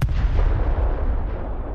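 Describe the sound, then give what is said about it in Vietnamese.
A magic golden talisman bursts into a large white shield with a sudden loud blast that holds as a dense, roaring rumble and slowly thins. No voices are heard. “lá phù vàng đột nhiên nổ tung, hóa thành một tấm thuẫn trắng lớn ở trước người Lê Trí.”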